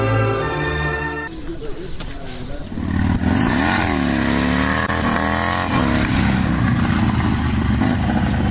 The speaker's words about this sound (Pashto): زه به دا موټر سکل لګ بغل ته ودرم.